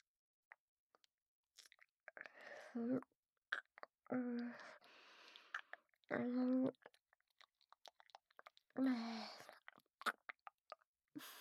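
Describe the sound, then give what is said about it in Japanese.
A voice produces wet licking and slurping mouth sounds in several short, close, quiet bursts, separated by soft breaths and small clicks. “谷間から飛び出してるツヤツヤの先っぽ、ペロペロしちゃおっかな。いい？舐めちゃうね。”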